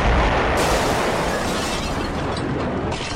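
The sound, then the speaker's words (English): A flaming falafel ball explodes in a loud, dense roaring rumble that starts at full force and slowly eases over about three seconds. “Oh no! The falafel ball! It's falling down towards Claire! Look out, Claire! It's going to explode!”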